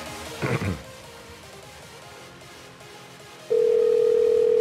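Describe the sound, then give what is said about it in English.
A telephone ringing tone on an outgoing call: a steady, mid-pitched electronic tone starts near the end and holds to the close over faint hiss, after a brief muffled sound at the start. “it's ringing at least”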